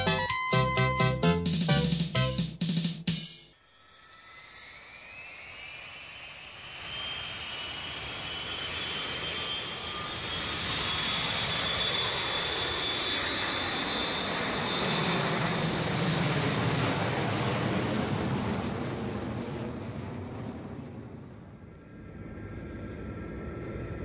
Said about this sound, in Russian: Наш самолет выполняет рейс 333 Калькутта-Москва. Пристегните, пожалуйста, ремни безопасности.